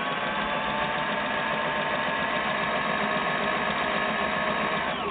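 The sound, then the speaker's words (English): An UltraFeed sewing machine stitches forward at its maximum 6 mm stitch length. The motor gives a loud, steady whirring drone with a rapid, even mechanical pulse, running unbroken throughout with no talk. “we're going to put the machine back and forward, maximum stitch length, 6 millimeters for the UltraFeed, and sew forward.”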